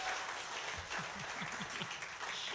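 Applause from a church audience welcoming a guest: a dense, steady patter of many hands clapping, fairly loud and unbroken from start to finish.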